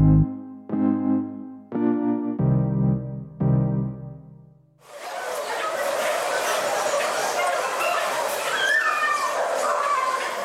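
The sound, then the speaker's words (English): Many dogs bark and whimper at a beagle breeding facility in Wisconsin holding over 4,000 dogs, forming a loud, continuous din of overlapping yelps and cries that follows a few seconds of music. “That's the sound of over 4,000 dogs at a Ridgeland Farms facility in Wisconsin.”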